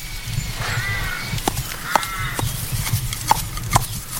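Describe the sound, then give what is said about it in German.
Horse sounds on an outdoor trail marked with hoof tracks: a few sharp, knocking clops at irregular intervals over a steady low rumble, with brief tonal calls in between. “Ich glaube, es ist ein Tier. Ja, ich glaube sogar ein Ross.”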